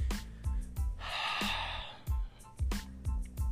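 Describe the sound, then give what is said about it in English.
A long, breathy exhale during a group prayer, a soft hiss lasting about a second over a rhythmic, bass-heavy music bed with a steady beat. “Just go ahead and exhale, breathe them on over now.”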